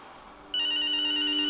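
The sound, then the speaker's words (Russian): An early-2000s phone rings with a primitive electronic ringtone through a poor speaker. After a short quiet lead-in, a shrill, buzzy, steady tone sounds insistently and runs unbroken to the end. “Пронзительно вдруг запеликало. Слишком характерный звук. Зазвонил телефон. Настойчиво и противно, как самые первые телефоны в нулевых с примитивными рингтонами”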